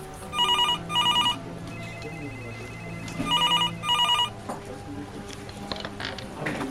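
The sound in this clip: An incoming call rings on a police emergency line, two double rings of bright trilling bell bursts separated by a pause. Faint background sound continues between and after the rings.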